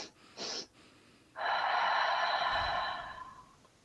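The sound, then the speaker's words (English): Breathing from a guided breathing exercise: a short, sharp sniffing inhale, then after a pause a longer drawn-out breath with a faint whistling, wheezy tone that slowly fades. Both breaths are quiet. “So let me just demonstrate it one time. You might hear me breathing, and then we'll try it for three breaths.”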